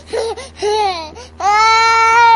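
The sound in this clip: A baby crying aboard an old airplane in three wavering, high-pitched wails, the first two short and broken, the last one longest and loudest, with no talk over it.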